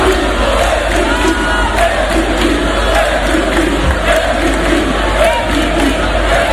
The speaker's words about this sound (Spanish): Llegaron a las 3:00 de la mañana y estuvieron danzando y de fiesta hasta las 10, 11 de la mañana. Tenemos sonido de esa fiesta.